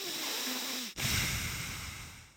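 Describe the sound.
A person imitates loud, heavy breathing right against the microphone: a rushing, hissy breath cut off by a brief pause near the middle, then another long breathy exhale that slowly fades. No words are spoken.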